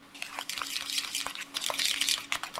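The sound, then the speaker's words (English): A whisk clicks and scrapes against a bowl as a sauce for miso mushroom pasta is beaten until smooth. The light, rapid taps come in an uneven rhythm, fairly quiet, with no voices. “So whisk it until it's smooth and even.”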